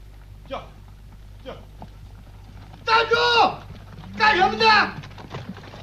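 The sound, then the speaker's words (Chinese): Hooves of a horse pulling a grain-delivery cart clip-clop as it arrives at a town gate at night. A few sparse, soft hoof beats sound over a low hum, with two short voiced bursts in the middle. “这时候一支送粮队伍赶着马车来到城门口。”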